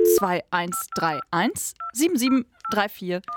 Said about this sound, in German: Die Nummern, die wir aber in dieser Woche wählen, die sind alle wahnsinnig nützlich. Wir schauen gerade, welche unbekannten Hotlines es da draußen so gibt, die uns helfen oder halt zum Lachen bringen können. Heute wählen wir einfach mal die